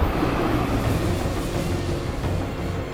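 A train running on railway tracks makes a steady, dense low rumble and rattle that carries on without a break at an even, moderate loudness.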